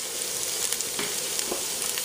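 Onion pieces fry in a pan with a dense, continuous sizzle and crackle, a steady hiss with scattered sharper pops and no talking.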